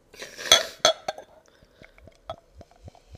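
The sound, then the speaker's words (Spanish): Glass clinks and knocks as an Amstel beer is served into a glass: a few loud, sharp chinks early on, then many fainter taps and clicks spaced irregularly. “Esto es que me gusta escuchar el sonido de la cerveza. ¡Ya! ¡Que se sale la espuma!”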